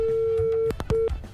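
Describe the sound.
Telephone busy tone after a caller's line is cut off: a steady mid-pitched tone holds for most of a second, breaks off amid a few clicks, then sounds again briefly.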